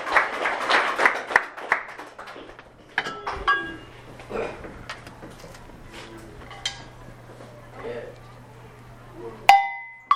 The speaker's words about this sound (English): Go ahead and give a round of applause.